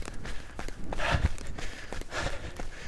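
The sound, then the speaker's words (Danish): Faint running footsteps on a run as the pace picks up, a quick, fairly regular patter of soft thuds. “Jeg har lyst til at løbe hurtigere. Jeg sætter farten op. Jeg sætter farten op.”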